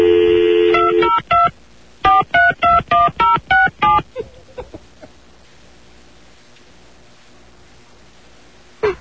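Telephone keypad tones sound while a call is placed: a steady tone, then a brisk, evenly paced run of short beeps at varying pitches, followed by faint hiss and quiet.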